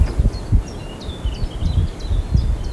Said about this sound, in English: Driving back, no top. Mad thing. It's a bit breezy now. That's genuine breeze, listeners, if you can hear that.